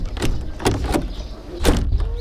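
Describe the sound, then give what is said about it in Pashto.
Knocking at a door: a few sharp, irregularly spaced thuds that stand out over a steady, low background rumble. “نجیبې لوري ته ورشه وګوره چې په دروازه کې څوک دی”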